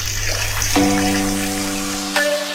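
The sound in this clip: Water left running and spilling over, a steady rushing splash that holds fairly constant and loud throughout.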